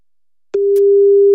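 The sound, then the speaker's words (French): A telephone line tone sounds as a call is placed to a mother: a click, then a steady, loud single-pitched tone that holds for nearly a second, with another faint click partway through. “On appelle Marie, 51 ans, ta maman.”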